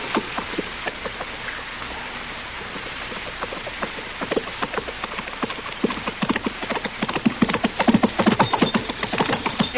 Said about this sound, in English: From the dust it's raising, somebody sure is riding at us in a hurry.